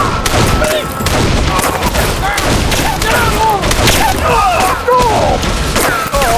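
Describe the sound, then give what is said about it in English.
Rifle gunfire between outlaws and returning shooters at a small rock-strewn hill. It is a dense, loud fusillade of many overlapping shots that keeps up without a break. “The outlaws opened fire, and Smoke, Matt, and Falcon returned the favor.”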